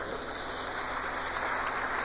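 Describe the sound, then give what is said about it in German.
Audience applause at a church service, a dense even wash of clapping that holds steady throughout without any voices on top. “Wir geben einen Applaus für unseren Bruder.”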